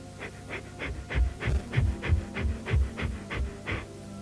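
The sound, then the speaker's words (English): Forceful diaphragm breathing: many short, evenly spaced exhalations in a steady rapid rhythm, like panting, with no talk. “Let me demonstrate. I breathe in and then expel the air.”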